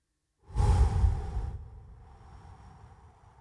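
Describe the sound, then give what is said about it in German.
A deep, long inhalation through the nose as a breathing exercise: one loud, breathy draw lasting about a second that then fades into a soft, airy tail. “einfach tief durch die Nase lange einatmen, bis einfach nichts mehr reingeht.”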